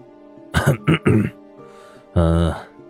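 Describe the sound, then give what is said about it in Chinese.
A man clears his throat with a few rough, raspy bursts, then a longer voiced hum, over a soft sustained tonal background. “跟他谈话的两个警察对视了一眼，其中一个被唤作张头的清了清嗓子道”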